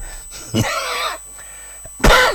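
Coughing and throat clearing from bronchitis come in two harsh, rasping bouts with a quieter pause between them, each sounding phlegmy and strained.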